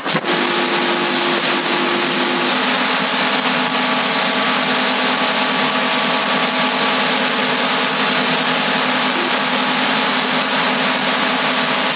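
Steady static hiss of a CB radio carrier on 27.075 MHz, unbroken for the whole clip, with a constant low hum tone running through it and no voices.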